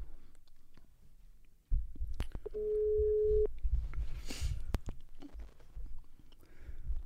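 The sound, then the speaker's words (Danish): A telephone rings while a caller dials a prize winner: one steady buzzing tone of about a second, surrounded by faint clicks and low rumbling handling noise. “Og jeg synes faktisk, vi skal ringe vores heldige venner op.”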